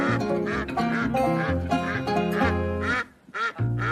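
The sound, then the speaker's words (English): A flock of ducks on a farm quacks loudly while a farmer chases them, giving many rapid, overlapping nasal quacks with no pause. The din thins briefly near the end before picking up again. “A farmer chases a flock of ducks before capturing one.”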